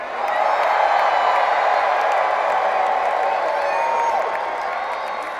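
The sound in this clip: Crowd cheering and applauding to welcome a band onto the stage, a loud, sustained roar of claps and whoops that holds steady and eases slightly toward the end.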